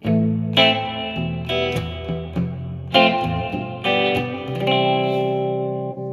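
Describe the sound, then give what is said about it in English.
Guitar chords played through a shimmer delay and HD hall reverb, each chord ringing out in a long, bright, shimmering wash that swells and overlaps with the next, with no voices. “It's like a shimmer delay. HD Hall reverb.”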